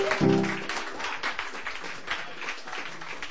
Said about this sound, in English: I'm just so proud to welcome tonight Miss Rebecca Lapa. please put your hands together.